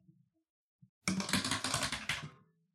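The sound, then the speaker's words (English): A die tumbles down a four-can-tall dice tower, making a dense burst of rapid clattering knocks that lasts just over a second and is fairly quiet. “That is the sound of a die getting rolled through a 4-can tall Hams dice tower.”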